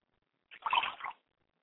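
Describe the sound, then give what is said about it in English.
A brief splash of liquid poured out as a libation during a Yoruba Orisha ritual: a single faint burst lasting under a second, heard alone with no talk. “I pour libation to my father's spirit, Obatala, the man in white”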